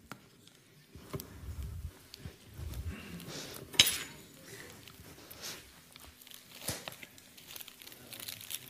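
Cream being filled into a plastic piping bag: soft, irregular crinkling and rustling of the bag with occasional light clinks of utensils and one sharper crinkle partway through, all fairly quiet.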